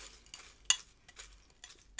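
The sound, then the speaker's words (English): Spoon stirring chocolate cereal in milk in a bowl: a few soft, irregular scraping and clinking strokes, faint and brief. “mix them up a little bit. The milk is kind of turning chocolate.”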